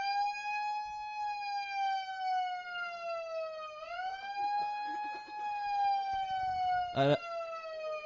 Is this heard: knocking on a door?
no